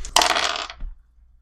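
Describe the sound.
Dice rattle across a table during a tabletop role-playing game: a short, bright clattering burst and then a dull knock as they settle, followed by near silence.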